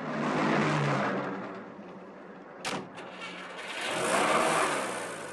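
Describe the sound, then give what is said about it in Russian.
A taxi's car engine hums as it pulls up and stops on an embankment. The engine noise swells, eases, then swells again, with a single short click partway through. “Такси останавливается на набережной.”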